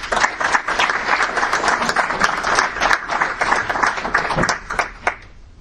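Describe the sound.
Loud audience applause greets a speaker, sustained and dense with individual claps standing out, then tapering off toward the end.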